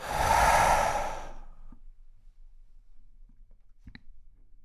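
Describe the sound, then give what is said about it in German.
A deep, breathy exhale like a slow sigh, loud at first and then fading away, followed by near-silence with a few faint clicks. “Und wenn du möchtest, kannst du nochmal tief einatmen und in den Boden ausatmen.”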